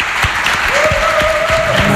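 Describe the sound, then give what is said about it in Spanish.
Audience applause at a gathering, in thanks to those attending: continuous, even clapping from many hands, with a thin steady tone running through its middle and latter part. “ya arrancaba ahí con el aplauso”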